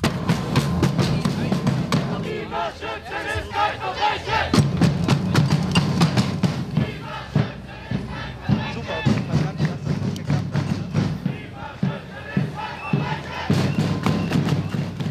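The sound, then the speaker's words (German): A large crowd at a climate strike demonstration against police repression, marching along the ring toward Wilhelm-Leuschner-Platz, chants slogans in rhythmic bursts, with many loud voices, shouts and cheering over a steady din. “Es waren viele Leute, kämpferische Stimmung und Parolen. Ja, vielleicht mal eine kleine Kostprobe, wie sich das dann da genau angehört hat.”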